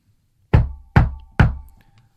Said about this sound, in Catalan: Truca a la porta.